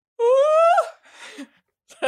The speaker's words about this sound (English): What was that? That was my yawn.